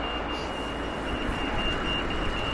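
A pedestrian crossing button signal sounds a thin, high, steady electronic tone over loud, continuous road traffic noise, with no talk.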